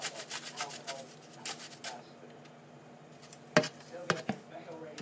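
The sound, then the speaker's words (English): Garlic grated on a hand grater held above a bowl: a quick run of raspy scraping strokes, then a pause, then a few sharper scrapes and knocks. “It is, but if I lean on it with the grater, it tips, so we don't want to do that, so I'll have to hold it above it. And just grate this in.”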